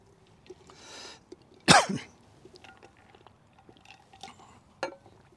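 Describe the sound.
Coughing from a dry spot in the throat: one loud, harsh cough, then a shorter, quieter one a few seconds later, with soft breathy throat sounds in between.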